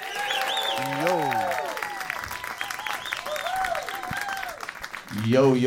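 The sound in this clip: An audience applauds and cheers to welcome the band Low Cut Connie at a live lunch concert in Louisville. The clapping is dense and continuous, with voices calling out over it, and it swells louder at the end.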